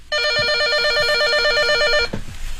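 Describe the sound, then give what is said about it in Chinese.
Electronic telephone ringing: a bright, warbling tone pulses rapidly and steadily for about two seconds, then stops, followed by a soft thump. “电话。”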